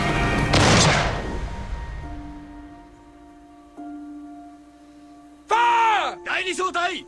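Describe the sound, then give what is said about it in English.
A row of Japanese recruits fires rifles at wooden targets in one loud, crackling volley. A sustained tone follows, and then a man shouts several times. “A row of Japanese recruits fires rifles at a pair of wooden targets.”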